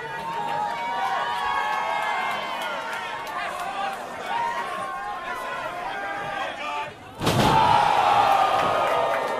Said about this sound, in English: Big slam, could be going for a Vader bomb.